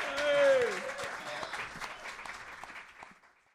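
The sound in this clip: Audience applause at the Jazz Kitchen jazz club in Indianapolis for a pianist, strongest near the start with a voice briefly over it, then thinning out and fading to near silence.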